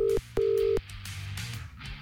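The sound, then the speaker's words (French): Two short, steady electronic keypad tones as a telephone number is dialed, followed by a dull, noisy rumble. “Compose un numéro maintenant. Au hasard. Au hasard chez quelqu'un.”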